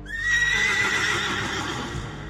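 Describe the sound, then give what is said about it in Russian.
A horse neighs in a long, high, wavering whinny that fades slowly over about two seconds, loud and on its own. “Кощей Бессмертный домой возвращается, под ним добрый конь спотыкается.”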